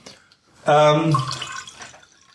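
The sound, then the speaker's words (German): Homemade egg liqueur is poured into a glass. A short, resonant glugging pour lasts about a second, then trails off into faint liquid sounds. “Ich schenke dir erstmal nochmal einen ein. Ja, komm, noch ein kleines Eierlikörchen geht schon.”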